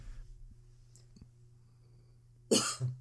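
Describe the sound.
A single person's cough breaks a near-silent pause: one sudden, loud, rough hack in two quick bursts lasting about half a second.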